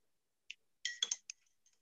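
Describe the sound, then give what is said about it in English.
A spoon clinks against a cup while stirring coffee, giving a few light, bright taps in a quick cluster, then faint ticks trailing off, quiet and alone. “I can hear it now. I can hear the stirring of the spoon.”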